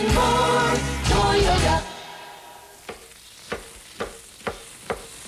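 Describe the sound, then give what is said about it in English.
A restaurant chef at Pennigan's sautés shrimp in a pan for seafood pasta. After a short burst of music, a soft sizzle runs under several sharp, evenly spaced utensil clacks. “You're watching a chef at Pennigan's make one of their fresh homemade pasta dishes. For Pennigan's succulent seafood pasta, you begin by sautéing shrimp,”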